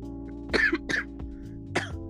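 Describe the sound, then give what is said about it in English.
Short, harsh coughs and throat-clearing bursts, done to roughen the voice before doing a character voice; a few brief rasping bursts over a steady low hum, with no speech. “you just gotta cough”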